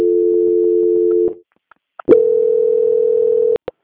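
Telephone tones sound during a call transfer: a steady mid-pitched tone holds, stops, and after a few faint clicks a second steady tone starts and is then cut off by a click.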